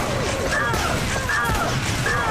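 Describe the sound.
Rapid weapon fire and impacts from the shooter video game Xonotic, a dense, continuous clatter that stays loud throughout while a person talks over it.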